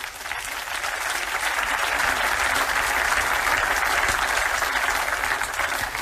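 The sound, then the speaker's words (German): An audience applauds at a civic address in Ulm, with dense, steady clapping that holds at an even level for about six seconds. “Applaus”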